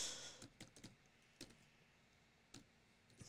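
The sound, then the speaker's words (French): Faint, scattered keystrokes of typing on a computer keyboard, a few quick clustered taps early on, then isolated clicks separated by quiet pauses. “Ah, ben, je vais taper coronavirus.”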